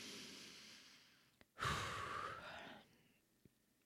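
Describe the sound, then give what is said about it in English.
One long, deep breath drawn in and let out, swelling for about a second before tailing off. It is heard alone in near silence, with two faint clicks around it. “Okay, take a breath.”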